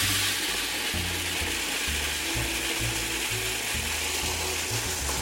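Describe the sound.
Seeds are ground into seed butter in a machine, a steady mechanical whir with rhythmic low thumping pulses that continues throughout, no talking.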